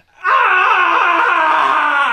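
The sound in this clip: A voice imitates the scream of someone zapped in the head, letting out one loud, sustained wail that lasts about two seconds at a steady, strained pitch with no other sound around it.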